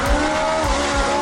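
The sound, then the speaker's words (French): A very large Ferrari's engine holds a loud, steady, harmonic drone, with a few low pulses beneath it and no talk. “Une très grosse Ferrari, ça.”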